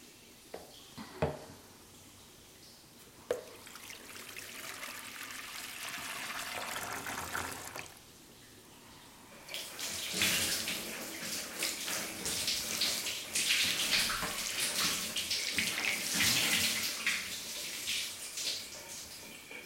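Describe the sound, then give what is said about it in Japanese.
Hot water poured over a person's back during a bath: a few brief splashes, a quieter pause, then a long, loud rush of pouring and splashing water that carries on to the end. “背中、お流しますね。お湯をかけますので、熱かったらおっしゃってください。”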